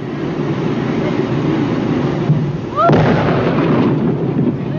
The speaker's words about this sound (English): The dynamite was detonated at 3:45 p.m.